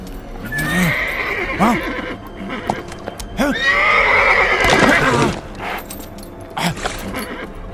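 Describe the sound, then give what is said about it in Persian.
A horse neighs loudly in a few long, shaking whinnies separated by short gaps, with quieter snorting and movement between them. “بهتر است اسب رفیقت پیش خودت باشه. اسب زیبا، سنوبر، سنوبر.”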